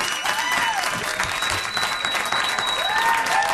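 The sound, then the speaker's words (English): Audience ovation welcoming a guest, dense sustained clapping at a steady loud level with a few whoops and a whistle rising above it. “A very nice ovation from our audience.”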